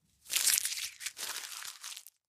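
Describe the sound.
Paper joker slips rustle and crinkle as they are drawn from a glass jar during a quiz game, in two soft bursts of crisp rustling with no voices.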